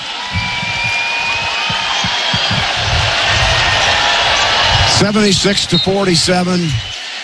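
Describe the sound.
A basketball is dribbled on court in the closing seconds of a Nebraska Huskers NCAA tournament game against Troy: repeated bounces under a loud, sustained crowd roar, with a commentator talking over it.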